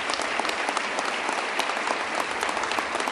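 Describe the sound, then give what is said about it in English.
A crowd gives Majority Leader Dean Skelos a round of applause, with dense, steady clapping that stays loud and even throughout. “big round of applause for Majority Leader Dean Skelos”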